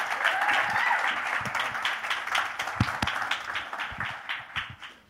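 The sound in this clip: An audience applauds to welcome a speaker with many distinct claps at a steady pace, moderately quiet and thinning out toward the end.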